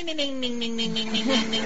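A phone ringtone of a novelty cartoon-frog tune plays loud and steady, a synthesized melody over droning electronic tones with a regular pulsing beat.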